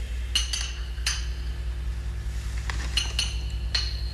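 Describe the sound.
A glass bottle clinks as it is lifted from a shelf in a poison cabinet: a few sharp, bright glassy taps spread out over a few seconds, alone above a steady low hum.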